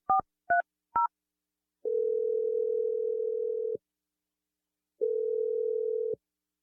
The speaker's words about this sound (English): I'm going to dial the number now. Here we go.